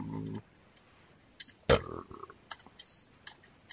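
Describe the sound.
A short, low burp sounds at the start, followed after a pause by a series of sharp, dry clicks at an uneven pace.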